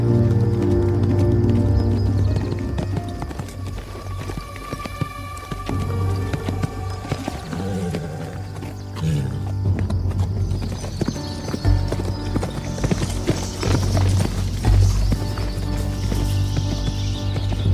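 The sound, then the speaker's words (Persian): A horse gallops toward a wooden cabin with a rider on its back. Many steady hoof clip-clops sound over a low rumbling background throughout. “سیاوش سوار بر اسب به سمت کلبه چوبیش میتازه.”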